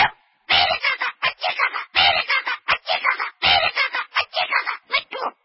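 A pet parrot squawks in a rapid string of harsh, choppy screeches and chatters. Many short bursts follow one another with brief gaps, loud and with no other sound.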